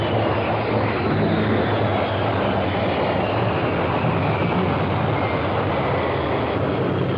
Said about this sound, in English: The sound of Richard Noble's thrust SSC warming up recently in preparation for an attempt on the world land speed record.